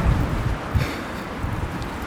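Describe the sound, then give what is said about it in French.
Stormy wind gusting outdoors in foul weather, a continuous low rumbling roar with small buffeting surges. No voices are heard. “Et là, c'est le cas, il fait un temps pourri, c'est la tempête.”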